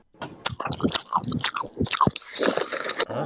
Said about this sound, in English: He's chewing directly into the microphone.